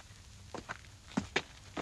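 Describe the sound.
Faint footsteps, several soft steps in an uneven rhythm, of people walking across a cottage yard toward its small porch.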